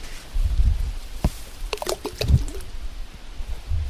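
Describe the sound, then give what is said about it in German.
Plum-like fruits dropping from a tree on the bank into lake water beneath a boat: a few soft plops and splashes over a low, rumbling background. “Man fährt mit dem Boot jetzt unter diesen Baum, der direkt an der Böschung wächst, und kann ihn dann so reinplumpsen lassen. Das ist diese Plumpstechnik, die hört sich so an.”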